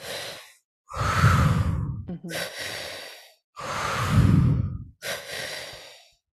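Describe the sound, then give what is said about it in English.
Deep, audible breaths demonstrate a three-part technique: filling the belly, then the chest, then exhaling through the mouth. Several long airy inhales and heavy, sighing exhales alternate with short pauses, loud and without talk. “So the tri-active breath is into the belly, up into the chest, and out through the mouth.”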